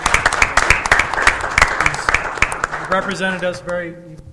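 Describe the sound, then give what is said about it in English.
Applause breaks out at a gathering honoring a chief chosen for a statewide award, a run of sharp, scattered claps that thins out before a voice takes over near the end. “So like to call for a round of applause for our own Chief Taylor.”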